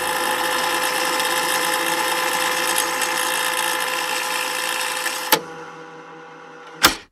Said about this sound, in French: moi, je pensais plutôt de cassettes quand on rebobinait des cassettes. Ah, oui. Eh ben, exactement.